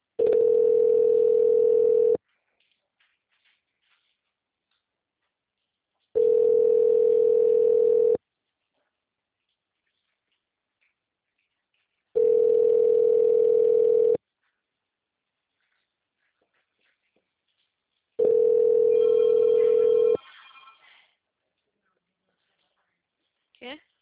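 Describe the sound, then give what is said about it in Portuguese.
A telephone line tone during a call transfer, four long steady beeps of one pitch, each about two seconds, separated by about four seconds of silence, with a brief rustle after the last. “Transferindo a sua ligação. Por favor, aguarde.”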